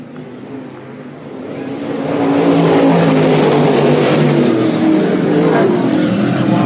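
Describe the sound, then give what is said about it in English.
Crate late model race cars roar out of turn four in a drag to the finish, their engines swelling louder after about two seconds into a dense, sustained, full-throttle roar. “Schwartzmiller caught Kading, here they come up, turn number four, it's a drag race”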